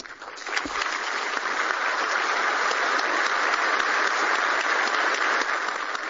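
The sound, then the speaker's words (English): Sustained, dense applause from diplomats giving a standing ovation at the UN General Assembly, a steady roar of many hands clapping that holds evenly loud throughout. “Diplomats stood and cheered for nearly a minute as the Secretary General completed a speech urging support for the recommendations of a high-level panel on UN reform. When the applause died down,”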